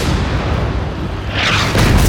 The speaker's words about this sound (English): As the Sherman approached the Panther, Groundhog let off another round and the German tank exploded.